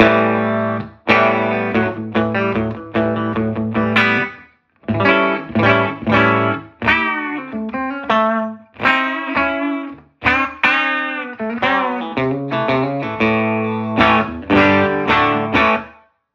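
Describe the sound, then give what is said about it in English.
Electric guitar through a 1959 Fender Super tweed amp with the bass control turned all the way up, giving a big, glassy tone with heavy low end. Bursts of ringing chords and runs play alone, broken by a few short pauses. “This is with the bass control all the way up to get, you know, what I would call the big glassy Tweed sound with big bass.”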